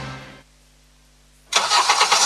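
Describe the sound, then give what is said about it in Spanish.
A car engine starts abruptly after a short stretch of near silence, bursting into a loud, rough, steady running rumble that continues to the end. “En Karen, seguimos con motores encendidos.”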